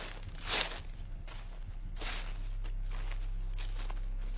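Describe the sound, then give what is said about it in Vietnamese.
Footsteps walk across a yard at night: a few soft, slow, widely spaced steps, faint over a steady low hum, with no talk. “Bỗng nhiên nghe có tiếng bước chân đi lại lịch bà lịch bịch ở ngoài sân.”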